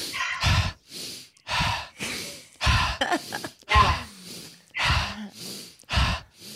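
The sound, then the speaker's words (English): Deep breathing during a guided breathing exercise, with many loud, airy inhales and exhales following one another in a steady rhythm. Each breath is separated by brief quiet, and there is no talking. “So take a big inhale and then exhale. Keep it going.”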